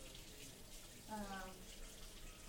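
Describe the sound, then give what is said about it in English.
Fruit or vegetables being washed under a running tap: a faint, steady hiss of flowing water that runs throughout. “Of course, I'm washing it again. Always wash your fruits and vegetables, even if they are organic.”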